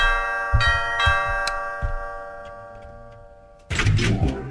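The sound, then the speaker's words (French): Doorbell chime sounding as a series of clear ringing tonal notes that linger and fade slowly, followed by a sudden louder burst of noise at the end. “Ah bah alors vous avez remis cette sonnette là maintenant.”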